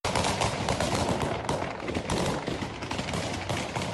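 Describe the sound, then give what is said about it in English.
Volleys of gunfire fired into the air by gunmen scattering protesters in Kabul form a dense, continuous crackling barrage of many rapid shots. The barrage runs without a break and stays fairly faint throughout. “Taliban gunmen fired in the air on Tuesday to scatter protesters in the Afghan capital of Kabul, witnesses said, as video showed scores of people scurrying to escape volleys of gunfire”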